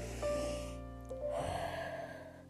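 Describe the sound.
Slow, deep breathing during a calming bedtime 'dragon breath' exercise, one long airy breath in and then one out, soft and steady over sustained musical tones.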